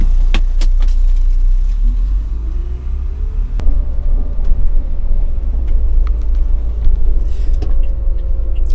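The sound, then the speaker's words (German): Catering vehicle driving across an airport apron to an aircraft stand: a steady, loud, low engine rumble with a faint whine and occasional clicks and rattles. “Da fahren wir jetzt hin. Genau, jetzt geht es auf Fox 01.”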